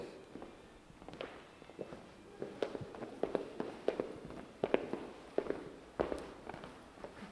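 Footsteps walk into the spiral room of Domenig's Steinhaus: many faint, sharp taps in a steady walking rhythm over a low background hiss, with no voices.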